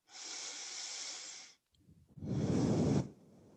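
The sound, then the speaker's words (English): Two long, soft breaths drawn slowly during a guided breathing exercise: a thin airy hiss, then a short pause, then a fuller, deeper exhale that fades out. The breaths are heard alone, with no talking. “lift your chest, and then when you exhale, slow release and you place your foot down where you want it to go and pause.”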